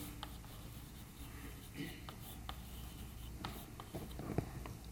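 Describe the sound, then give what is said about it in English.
Equations being written by hand during a mathematics lecture: faint, scratchy strokes and light taps come in short, irregular bursts over a quiet, low background hum. “let me write it out.”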